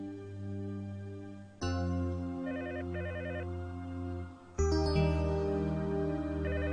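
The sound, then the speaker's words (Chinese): A telephone rings with an electronic tone: short warbling trill bursts repeat over a sustained, layered tonal backdrop that steps up in loudness twice. No one speaks. “喂，星儿听电话啦，我想留言啊。”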